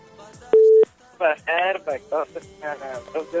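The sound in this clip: A telephone call is dialed from a studio: one short, steady electronic tone sounds, then a voice talks over the line in bursts of speech.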